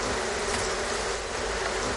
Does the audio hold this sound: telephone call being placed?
no